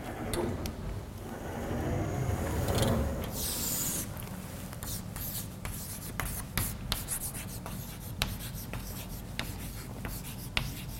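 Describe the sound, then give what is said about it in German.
Writing on a board during a university lecture as the lecturer notes a textbook title: many scratchy strokes and sharp taps in an irregular rhythm, fairly loud, with no speech over them. “So, ich schreibe Ihnen nochmal das andere Lehrbuch auch noch an.”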